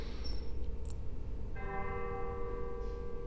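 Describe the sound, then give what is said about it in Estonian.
Church bells ringing faintly: a quiet wash of background noise, with sustained bell tones emerging partway through and ringing on to the end. “Kas need kirikukellad, mis taustal kõlavad, kutsuvad sind juba proovi?”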